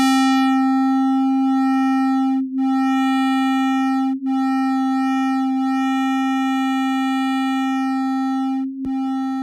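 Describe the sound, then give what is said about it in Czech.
Sun's oscillations converted directly into audible sound without scaling: a loud, steady humming tone rich in overtones that holds one pitch throughout, broken only by a few brief dips in loudness. “I oscilace slunce jsem převedl na zvuk, ale pozor, v tomto případě nebylo potřeba škálovat, protože slunce pulzuje na frekvencích, které jsou pro nás pohodlně slyšitelné.”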